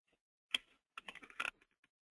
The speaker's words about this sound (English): You may not have realized this, but you can just go in and type in somebody's name here, and then it will pull them up.